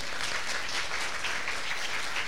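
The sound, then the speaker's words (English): Applause from a church audience during a Sunday gathering, a steady, even patter of many hands clapping at moderate loudness for the whole clip. “Somebody give him a clap.”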